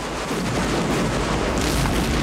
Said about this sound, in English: An explosion rips through their ranks, propelling two soldiers through the air, and another group of infantry at the front are mowed down by musket fire.